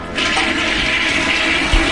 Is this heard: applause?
no